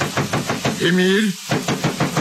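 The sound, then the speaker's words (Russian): A father bangs on a locked door, hitting it in a fast, steady rhythm of repeated thuds, with a brief voiced cry in the middle. “Так что папе ничего другого не оставалось, как снова ломиться в закрытую дверь.”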